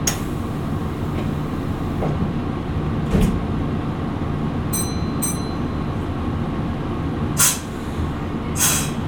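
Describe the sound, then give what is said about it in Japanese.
A vintage Hankai Tramway streetcar, car 161, pulls away with a steady low rumble of motor and wheels, occasional clanks and a few short hissing bursts, with no talk. “日本で最長路の営業用の電車が走ってるトラムまあ路面電車ということなんですけどまあとにかくいろいろ歴史がありますんで、乗ってみましょう、はい、では今日も出発進行”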